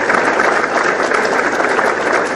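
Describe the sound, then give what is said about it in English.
Audience applause for young people at a talk: loud, dense clapping runs steadily throughout with no pauses. “Give them a round of applause for being here today.”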